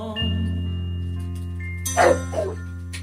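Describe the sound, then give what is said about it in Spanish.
A dog barks twice inside a song, two short, fairly loud barks near the end that cut through steady sustained musical tones. “¿Eso viene en la canción, el perro?”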